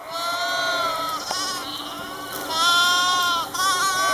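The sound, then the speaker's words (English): Goats bleat in a continuous chorus of wavering, nasal cries that overlap and swell in loudness, with no voices. “When I heard that goats were eating weeds along the Rio Grande Trail this month, I thought they would sound something like this.”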